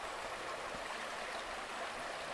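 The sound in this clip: Faint, steady flow of spring water running from a natural water source in Chile, a continuous soft rushing and trickling texture without pauses or voices.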